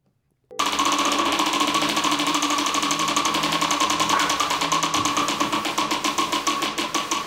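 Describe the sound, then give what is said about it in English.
A prize wheel being spun: a loud, rapid stream of ratcheting clicks that starts abruptly after a brief silence and gradually slows, the clicks spreading farther apart toward the end. “All right, should we spin this wheel?”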